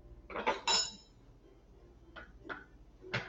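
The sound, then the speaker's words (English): Clattering and rustling as salad ingredients, including carrots, are tossed with an Asian-style sauce directly on a mat; a few short, crisp bursts, the loudest cluster early on and then fainter ones spaced apart. “So we're going to mix it up here. Mix all the ingredients.”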